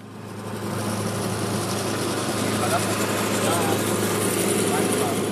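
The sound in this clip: A lawn mower engine runs steadily while a football pitch in Maribor, Slovenia, is mowed: a continuous, fairly loud droning hum that fades in at the start and then holds without clear change.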